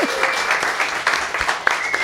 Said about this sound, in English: Can we thank all of our guests here tonight with a big round of applause?